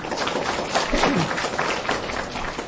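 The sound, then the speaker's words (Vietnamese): Brief applause from a gathering at a Buddhist temple, honouring the founders of the temple. The clapping is moderately quiet and uneven, rising slightly in the middle before easing off. “Thì xin quý vị cho một tràng pháo tay”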